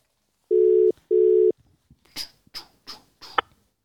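A telephone is dialed to place a call. Two steady, low electronic beeps of equal length are followed by a short series of sharp keypress clicks, with no voices.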